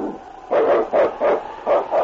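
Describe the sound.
A lead sled dog of the snowy Northwest barks in five short, sharp bursts with an uneven rhythm. The barks are loud and clear, with no talk over them.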